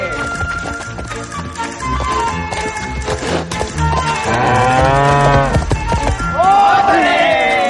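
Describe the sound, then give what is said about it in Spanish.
Young cow (heifer) mooing, a drawn-out falling call near the end, over loud music with people talking throughout. “La vaquilla avanza hacia él y Mario corre asustado.”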